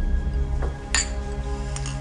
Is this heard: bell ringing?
no